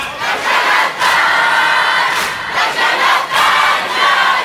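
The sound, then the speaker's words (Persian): A crowd of mourners at a gathering for Imam Husayn chants responses in loud unison, the sound dense and sustained, with a few stronger surges at fairly regular intervals. “اگه بدونید چقدر قشنگ سینه میزنن، چقدر قشنگ جواب میدن.”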